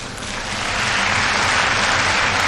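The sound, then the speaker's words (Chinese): Crowd cheering and applauding after a back handspring landing on the balance beam at a gymnastics competition. The dense, roaring wash of noise swells during the first second, then holds loud and steady. “后手翻横木落啊，同样是引得了全场的喝彩。”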